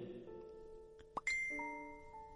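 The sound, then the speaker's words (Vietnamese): A phone rings with soft electronic chime tones. A short blip is followed by a brighter, higher chime that holds its notes and slowly fades, all fairly faint. “Chuông điện thoại rung lên”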